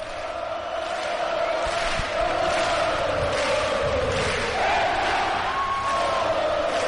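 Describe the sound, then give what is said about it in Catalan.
The crowd at a basketball game in the Palau Olímpic roars continuously during the team presentation, a loud, dense wash of cheering and clapping that stays steady throughout. “L'alcalde no ha parat d'aplaudir. Des de que s'ha aixecat, no ha parat d'aplaudir. I aquest és l'ambient al Palau Olímpic.”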